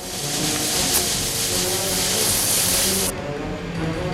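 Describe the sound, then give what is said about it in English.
Sizzling hiss of lit dynamite fuses burning down before blowing out a wall, a dense, steady, loud rush of noise that turns slightly duller for the last second. “Gary and Cerrone travel back to the barge in the dinghy. They've lit the dynamite fuses, which smoke and sizzle.”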